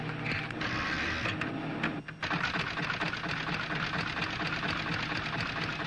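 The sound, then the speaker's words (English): A matchmaking computer processing a punched card gives off a dense, continuous mechanical clatter of rapid ticking and rattling. The sound dips briefly partway through, then resumes at an even, busy pace. “Now I'll take Mike's card, put it through the machine.”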